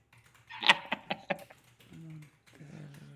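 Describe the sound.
A quick burst of keyboard typing as someone writes a diary entry on a device, with several crisp clicks in a row, followed by brief voiced sounds.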